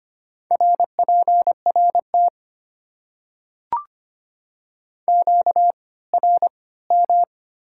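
A radio interference tone: a steady, mid-pitched electronic beep repeating in many short pulses, in two runs separated by a pause that holds one sharp click.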